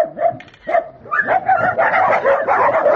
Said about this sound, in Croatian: Jovica Dreković iz Draževačkog azila kaže da je na tom mestu oko 200 pasa.